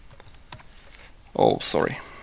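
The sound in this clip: Computer keyboard typing as a QR encode command is entered into a console: a few faint, scattered key clicks followed by a louder, denser burst of keystrokes near the end.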